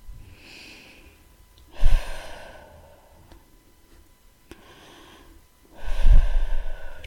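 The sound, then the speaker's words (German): Deep breathing in and out during a guided relaxation exercise: a few slow, airy breaths, two of them loud and gusty with a snorting edge, the others soft and faint, with no talk. “also ein paar Mal tief ein- und ausatmen.”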